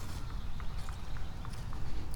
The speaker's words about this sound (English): Walking out of the forest here.